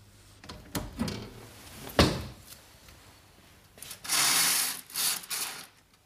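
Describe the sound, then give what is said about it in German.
A curtain being pulled aside at a window: a few quiet clicks and rattles, then a longer soft swish with a couple of brief follow-up rustles. The sounds are faint, with no talk. “Wenn wir jetzt den Vorhang ein wenig beiseite tun, können wir hinausschauen.”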